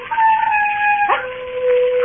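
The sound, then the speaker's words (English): A wild dog howls on a moor: one long, sustained, tonal cry that drops to a lower pitch midway and holds there, loud and alone. “There are wild dogs on the moor. Sometimes they bay and howl.”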